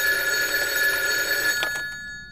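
A telephone bell rings as a continuous, bright, high-pitched trill at steady loudness, then cuts off shortly before the end.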